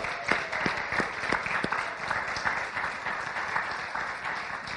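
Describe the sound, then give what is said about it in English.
A church audience claps in welcome, dense, steady applause of many hands sustained throughout, with a few sharper individual claps standing out near the start. “Would you put your hands together?”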